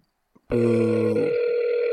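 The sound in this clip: Ringback tone of an outgoing telephone call: after a faint click, a single steady buzzy tone starts and holds to the end, loud and alone with no talk.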